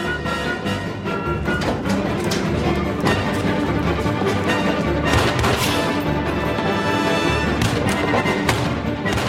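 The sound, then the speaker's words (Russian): Gunfire during a chase across a courtyard and gallery, with a few sharp shots cracking through a dense, loud, continuous bed of sound that stays steady throughout. “Гоцман стреляет по нему из окна. За Чеканом по галерее бегут Якименко и Тишак. Внизу, по двору, Чекана преследуют двое оперативников. По бандиту стреляет и майор Кречетов. Чекан отстреливается.”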